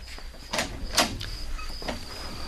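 A door is opened with a few sharp clicks and knocks from the latch and handle, over a steady high-pitched hum.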